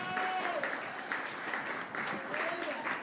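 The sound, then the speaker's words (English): Congregation applause at a church service, with steady, lively clapping from many people and a voice speaking over it. “I think God deserves a round of applause for what he has been doing”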